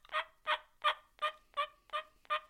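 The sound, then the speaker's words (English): Turkey tree yelps made on a mouth call: seven evenly spaced, raspy nasal notes in a steady rhythm, soft and muffled, heard alone. “I have a larger, more dispersal of that air to muffle that sound on a mouth call to make that tree yelp.”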